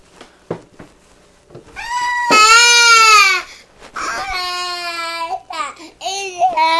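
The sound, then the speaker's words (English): A baby cries in loud, drawn-out wailing sobs, a few long strained cries broken by short gasps and catches, with no talk over them. “why you let the baby cry like that?”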